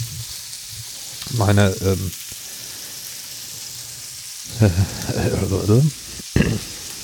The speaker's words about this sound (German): So, die Pfanne mit Mettenden brutschelt jetzt hier. Das sieht schon mal sehr gut aus.